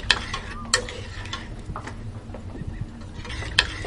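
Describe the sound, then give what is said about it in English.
Melting chocolate is stirred into water, making soft, uneven scraping and swishing with a few faint, sharp clinks scattered through it. The sounds are quiet and irregular, and no one speaks. “it would be easier for the process if you just stirred it a little bit. Ooh, it looks like it's starting to melt.”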